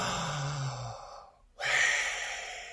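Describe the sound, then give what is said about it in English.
A single breathy inhale is followed, after a brief silent pause, by a long exhaled breath. Both are soft and airy, and no words are spoken. “The sound of an inhaled and exhaled breath makes the sound of our Creator's name.”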